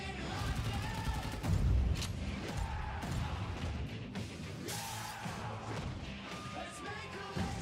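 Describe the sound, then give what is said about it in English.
Gunfire, with a few sharp, loud shot cracks scattered through a busy, noisy stretch of clatter and rumble. “We just got shot at!”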